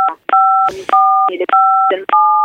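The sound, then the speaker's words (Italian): Telephone keypad dialing tones: about five short, bright, two-pitched beeps in quick succession, separated by brief clicks and noise. “È partita anche una tastiera telefonica per non farci mancare nulla.”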